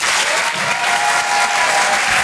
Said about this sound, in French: Merci, merci au public. Le Rire et Chanson Comedy Club. Découvrez vos futures stars du rire. Faites du bruit s'il vous plaît pour Laurent Barra.